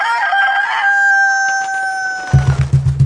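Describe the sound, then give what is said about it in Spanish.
A fighting rooster at a cockfight lets out one long, loud, sustained crow. A quick run of low, rhythmic fluttering pulses follows at the end. “Una vez frente al enemigo, el Carmelo agitó las alas y cantó.”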